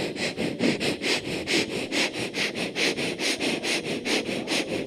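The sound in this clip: Many quick, rhythmic sniffs drawn in through the nose, evenly spaced and steady in loudness, repeating without pause and with no voices over them.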